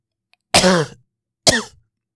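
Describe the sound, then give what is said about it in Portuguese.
Two harsh coughs from a man who is sick with a cold and cough: a longer, throaty first cough, then a shorter second one after a brief pause, loud and alone with no talk. “Esta tosse não foi fake. Foi tosse, mesmo a sério.”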